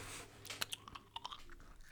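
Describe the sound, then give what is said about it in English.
Chewing on Chewy Spree candies: soft, wet mastication with a few faint crunching clicks, quiet and close, with no talk. “The bag of chewy spree is ruining the podcast. They're so dang delicious, though. I can't stop eating them. ASMR.”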